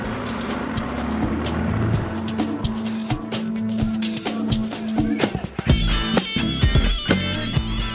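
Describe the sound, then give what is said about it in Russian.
A car engine drones steadily as the car drives along a snow-covered lane in a village, with a shifting rumble running throughout and a voice speaking over it. “Емельян сел за руль и покатился по заметенному проулку к небольшому кирпичному домику в центре поселка”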